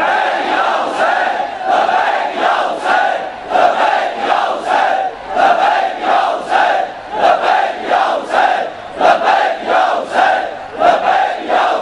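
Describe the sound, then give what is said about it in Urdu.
A Shia crowd chants the slogan Labbaik ya Hussain in loud, rhythmic unison. Many voices repeat the same short phrase in regular bursts, steady throughout. “یہ شیعہ جو لبیک یا حسین کا نعرہ لگانے والے ہیں، لبیک یا حسین.”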